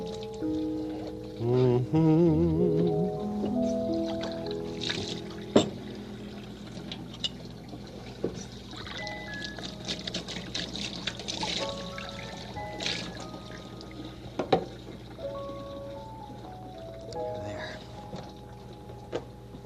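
Tap water runs while a cup is washed out with dishwashing liquid, giving a steady trickling, pouring wash with a brief stronger splash near the start.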